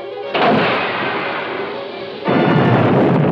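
A submarine firing a torpedo followed by an explosion: after a short quiet lead-in, a loud, rumbling blast erupts and roars steadily, then a second, louder burst surges in near the end.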